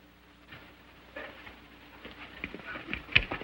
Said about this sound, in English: Zanty and his gang gallop into the ravine.